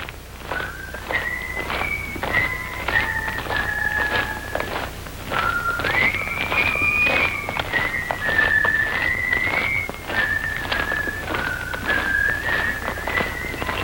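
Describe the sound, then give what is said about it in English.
Soldiers, a column of prisoners of war, march in step while whistling a tune together. Many steady, even footfalls keep a regular rhythm under a continuous high whistled melody from start to finish. “One after another, the men begin to straighten up. and march in step and whistle.”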